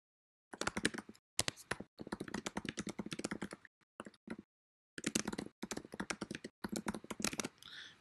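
Typing on a computer keyboard: rapid clattering keystrokes come in several bursts separated by brief pauses, with no voices.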